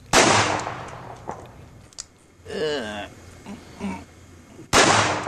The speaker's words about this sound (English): That's Burroughs on YouTube, blasting Ralph Steadman's portrait of William Shakespeare.